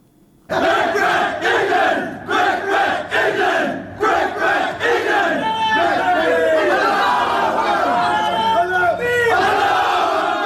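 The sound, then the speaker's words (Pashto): Members of Afghanistan's national cricket team shout and cheer together in their room in Zimbabwe, celebrating a cricket victory. Loud rhythmic group chanting comes in bursts, then gives way to sustained, overlapping shouts. “دا د افغانستان د کرکټ د ملي لوبډلې غړي دي چې په خپل خونه کې د کرکټ د بری لعملات د خوشحالي ناره وهي”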